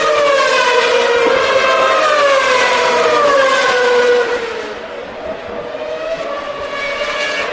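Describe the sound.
Formula One cars from 2012 howling through the final lap at the end of a race, heard from the terrace above the garages; a loud, high-pitched wavering engine whine whose level drops somewhat after about four seconds.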